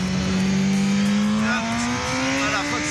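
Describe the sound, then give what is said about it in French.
An official motorcycle accelerates around the 24 Hours of Le Mans racing circuit, its engine a loud, sustained roar whose pitch climbs steadily, with a short step down partway through. “Alors c'est pas un kiff énorme ça, de rouler sur une moto officielle, sur le circuit des 24 heures du Mans.”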